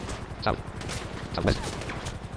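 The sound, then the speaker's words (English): Gunfire from a helicopter in a video game: rapid, rattling shots run throughout, with two louder bursts standing out, while a voice talks over the shooting. “Which and someone is shooting at you, so apparently they did get up there. I think that's another... Oh, they're shooting out of the helicopter?”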